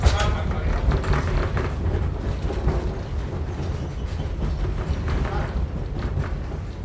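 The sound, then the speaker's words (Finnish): A train running on rails, drawn by a wood-fired steam locomotive, gives a continuous rushing rumble with a low, steady clatter underneath that stays level throughout. “niin sitten tulee semmoinen illuusio, että tämä menee lujaa tämä juna tässä”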